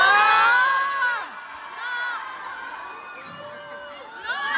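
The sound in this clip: Concert audience in Bayonne shouting back at a performer, many voices yelling and whooping together in loud, high-pitched bursts that fade out and then surge again near the end.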